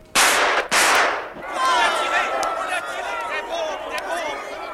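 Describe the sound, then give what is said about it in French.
Two loud, sharp gunshots ring out in quick succession at an assassination in Sarajevo in 1914, followed by agitated crowd voices and shouting. “deux coups de feu ont claqué”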